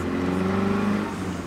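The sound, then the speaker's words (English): Steady low engine drone of a minibus creeping through gridlock traffic between Alex and Sandton, a continuous hum with a faint higher whir and no talk. “Luando has been driving the minibus mostly along this route for the last 25 years. It's a 20-minute journey through gridlock between Alex and Sandton,”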